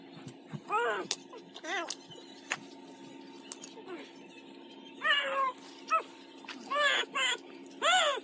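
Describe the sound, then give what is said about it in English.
A cat meows in a series of short, arching cries, several of them spaced irregularly, over a faint steady hum. “That's a cat, right?”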